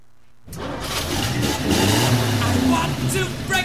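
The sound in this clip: A car engine bursts into life after a brief quiet moment, then runs and revs loudly and steadily to the end, with a rough, broad mechanical roar.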